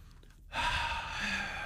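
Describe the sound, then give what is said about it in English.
A person draws a deep breath in: after a brief quiet moment, a sudden loud, rushing inhale lasts a little over a second. “Come on, breathe. Breathe in.”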